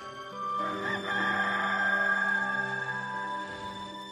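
A rooster crows in one long, drawn-out call lasting about three seconds, clear and moderately loud with a steady tone.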